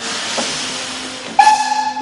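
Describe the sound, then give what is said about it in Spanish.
A steam train pulls away from a station platform: a steady hiss of steam, then a sustained whistle-like tone cuts in partway through and lifts the level. “El tren se aleja despacio.”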